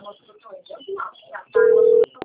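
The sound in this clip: A telephone rings with one loud, steady electronic tone lasting about half a second, then two short sharp clicks. A person speaks briefly just before the ring.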